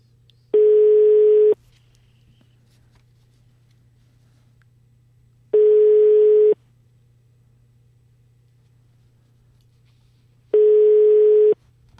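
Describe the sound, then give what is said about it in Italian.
A telephone ringing on the line, heard as a ringback tone: three steady mid-pitched tones, each about a second long, evenly spaced with long gaps of silence between, over a faint low hum. “Squilla il telefono della Zanzara, sentiamo.”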